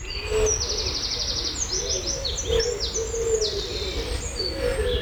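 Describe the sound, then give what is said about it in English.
Birdsong in a garden at five in the morning: many overlapping high chirps, whistles and trills, steady and busy throughout, over a low constant rumble. “sound of our studio garden at 5 o'clock in the morning. That's a lot of noise for just, well, birds.”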